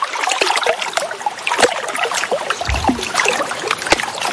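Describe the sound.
River water flowing along the bank of the Ouvèze at Courthézon, a steady bright rush full of trickles and small splashes that continues unbroken throughout.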